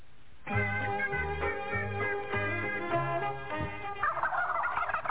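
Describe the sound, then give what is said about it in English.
A live farm-raised turkey gobbles in a loud, rapid run of throaty, warbling calls that repeat in quick succession, heard alone without talk. “All right, I didn't know Bill would send a live turkey. He said he raises turkeys.”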